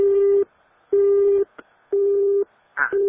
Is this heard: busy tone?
yes